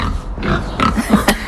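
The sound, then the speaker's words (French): A few pigs on a farm, kept behind a low wall under a barn, give short, rough, low grunts in quick succession over a steady, noisy background. “il y a même quelques cochons. On les aperçoit derrière un petit muret bien abrité sous une grange.”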